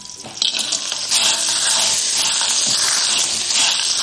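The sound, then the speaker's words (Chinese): Clams with scallion and ginger slices sizzle in hot oil, a loud, steady, hissing crackle that starts within the first half-second and holds evenly to the end. “油热了，倒入葱姜片爆香，然后倒入蛤蜊，”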